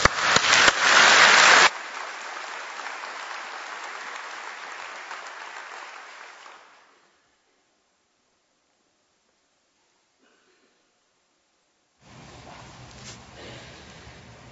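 Audience applause welcomes a guest pastor to the pulpit, opening as a loud, dense burst of clapping that settles into steady applause and fades out, followed by silence before other sound resumes.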